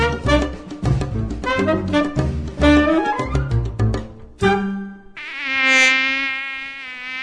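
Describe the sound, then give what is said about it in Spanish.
Buzzing of a dengue-carrying mosquito: a loud, harmonic whine that keeps shifting in pitch, with no voices. “El mosquito que transmite el dengue vive en el agua clara que parece limpia y se junta en las gomas,”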